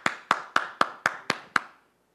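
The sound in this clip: Hands clapping seven times at an even, steady rhythm, each clap sharp and bright with a short decay, followed by silence.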